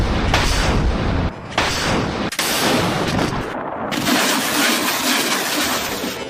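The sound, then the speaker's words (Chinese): Rocket artillery firing during high-intensity suppression fire on distant deep targets: loud, sustained roaring blasts that run together, broken by a few brief dips before fresh bursts of roar surge in. “同时火箭炮分队无缝衔接，交替火力打击任务，对远距离纵深目标实施高强度火力压制”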